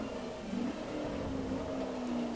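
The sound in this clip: A car engine drones in a video game race, a faint, steady hum with a whining tone that swells briefly early on, then settles into an even sustained note.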